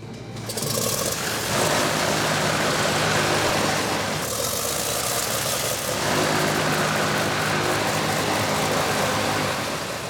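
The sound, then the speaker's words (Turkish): An aircraft engine starting up ahead of fuel-pressure checks: it catches after about a second and settles into a loud, steady, rumbling run with a broad roar that swells briefly partway through. “Şimdi motoru çalıştıracağız. Yakıt basınçlarına bakacağız ve yanlış giden bir şey var mı diye kontrol edeceğiz.”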